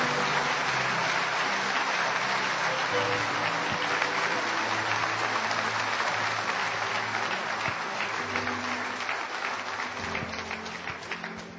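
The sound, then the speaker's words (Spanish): Church audience applauding, a dense steady wash of clapping hands that runs loud for the full eleven seconds and eases slightly toward the end. “Dale tu mejor aplauso al Señor. Que sea fuerte ese aplauso al Señor, iglesia.”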